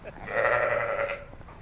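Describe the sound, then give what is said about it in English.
A sheep in a pen of ewes close to lambing gives one long, steady bleat with a nasal, buzzing tone, clear over a quiet background. “So these are the sheep in here at present are all on the point of lambing due to lamb on as we're talking here.”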